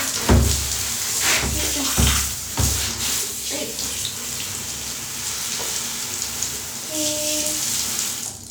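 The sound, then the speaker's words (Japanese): Water splashes and sloshes as a child is washed in a bath with water that is still a little cold. A few heavy splashes come early, followed by quieter, steadier watery movement. “ちょっとまだ冷たいお湯が。よいしょよいしょ。お尻洗って、”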